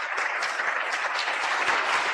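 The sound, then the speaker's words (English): Audience applause fills the room at a live event welcoming a new WNBA franchise, a dense, steady clatter of many clapping hands that holds at an even loudness throughout, with no voices standing out. “Can I get some real applause?”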